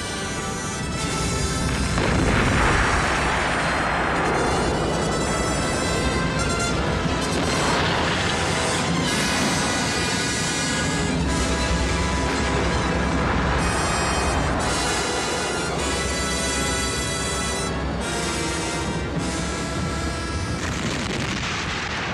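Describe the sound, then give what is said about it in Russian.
Artillery shells explode into the earth of a hill holding a cannon battery in a battle scene, making a loud, continuous, dense roar of booms and rumble with no gaps throughout. “Снаряды взрывают землю кургана.”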